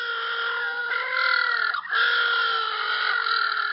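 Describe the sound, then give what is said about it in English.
Little blue penguins call in a harsh, nasal, harmonic braying that runs continuously. It is steady and moderately loud, with one short dip partway through. “Now that's the sound of little blue penguins.”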